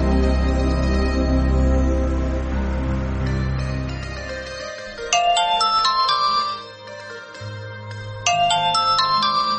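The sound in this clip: Electronic telephone ringtone in two bursts of bright, repeating melodic tones, heard after loud low music fades out.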